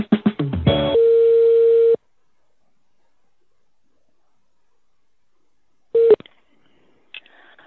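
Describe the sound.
Telephone tones as a call is transferred to a personnel department: a quick run of dial-pad beeps, then a steady tone lasting about a second, a long silence, and a brief tone with a click near the end.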